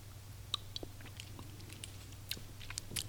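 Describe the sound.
Someone chews and eats pumpkin in many small crunchy bites and moist, clicky mouth sounds. They come irregularly and faintly over a steady low hum, with no talking.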